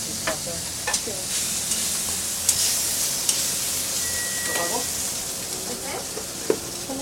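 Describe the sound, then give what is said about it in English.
Grease sizzles on a hot taco griddle with a loud, steady hiss, broken by a few scattered sharp clicks and scrapes. “Ya quemó, grasa, mire aquí, ya quemó grasa.”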